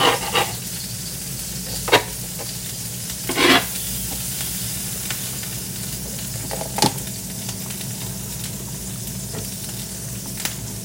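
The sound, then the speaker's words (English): An egg fries in a pan, held inside an egg ring. A steady, loud sizzle runs throughout alone, broken by a few sharp crackling spikes. “Okay, I'm removing the egg ring now because my egg has already formed.”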